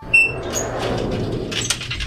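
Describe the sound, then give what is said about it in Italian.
A door is shut with a short thump near the start, followed by steady background noise and a brief second knock toward the end. “hanno chiuso la porta! Non possiamo più entrare!”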